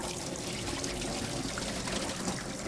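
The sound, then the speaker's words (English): Cold tap water runs steadily over bean sprouts as they are rinsed clean, a continuous, even splashing hiss with no breaks. “Okay, make sure you use cold water, and you want to wash it nice and clean”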